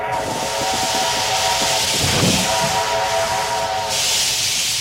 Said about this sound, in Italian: questo rumore che senti è il nostro treno a vapore.